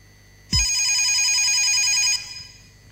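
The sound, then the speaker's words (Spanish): A telephone rings once, a loud and steady warbling electronic tone that holds for about one and a half seconds and then stops abruptly. “Llaman por teléfono.”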